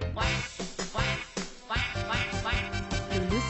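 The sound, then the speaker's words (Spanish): Duck quacks in a children's song, a quick series of nasal calls, loud over a busy musical background. “una patita que es muy divertida. Todo el día se ríe a carcajadas con su cuac, cuac, cuac”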